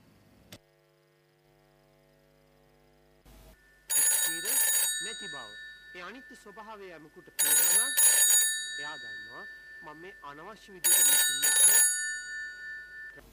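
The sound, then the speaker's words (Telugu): A telephone rings in three loud, shrill bursts of bright bell tone separated by pauses, with a voice calling out between the rings. “ఆ phone అలా నిర్వీరంగా మ్రోగుతుంటే వినపడటం లేదా?”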